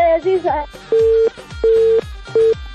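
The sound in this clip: A telephone call dropping: a short burst of garbled sounds, then three steady mid-pitched disconnect beeps, the last one shorter than the first two.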